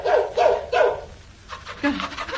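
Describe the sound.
A male dog on a road barks three quick, evenly spaced times. After a short pause come a few softer, higher yelps and barks, and no one talks.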